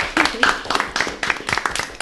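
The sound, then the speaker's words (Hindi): Clapping from an audience for quiz teams after a scoring round: a quick series of distinct, sharp handclaps in a fairly regular rhythm over about two seconds. “जोरदार तालियां।”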